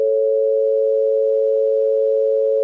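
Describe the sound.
A single pure electronic tone from a demonstration of a major-third interval, held at a constant mid pitch. It is loud and unwavering for nearly three seconds, with no talk.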